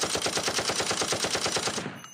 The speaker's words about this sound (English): as long as you keep the trigger pulled down, the gun will keep firing on its own.